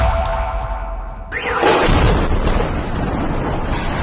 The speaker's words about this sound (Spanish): Bombardeo de Kiev que suena así. Estas son las bombas que han atemorizado hoy a toda Ucrania.